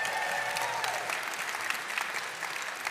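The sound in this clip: Crowd applause fills a church event ahead of a halftime show of cover songs, a dense, steady crackle of many clapping hands that stays loud and even throughout with no clear talk above it.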